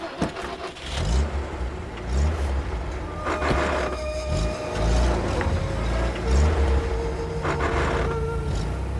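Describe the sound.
Vehicles, including a truck, driving off in different directions across the steppe: a loud, continuous engine rumble with surges of revving throughout.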